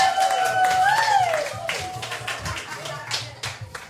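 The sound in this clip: An audience claps to welcome a comedian onto the stage. Brisk, scattered claps ring out under a voice at the start, then thin into fewer, sparser claps toward the end.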